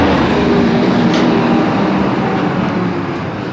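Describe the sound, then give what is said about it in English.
A garbage truck passes with a loud, steady, rumbling engine roar that holds at one level and eases off slightly toward the end. “Garbage truck.”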